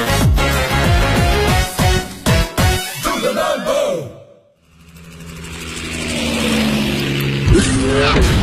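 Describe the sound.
A sports car with an all-aluminum petrol V8, all-wheel drive and a top speed over 300 km/h, revving. The engine swells steadily louder after a brief drop to near silence that follows a run of loud, dramatic sounds.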